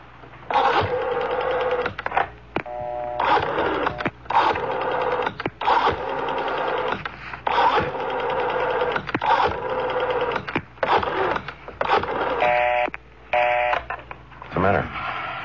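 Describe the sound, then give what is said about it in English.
A telephone being dialed, starting with 9, heard as many bursts of mechanical whirring and clicking separated by short pauses. “I better try that call. And we'll dial 9 first.”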